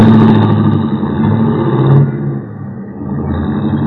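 A taxi cab's engine rumbles steadily and loudly as the car drives off. The sound drops in level for a moment before the engine note returns.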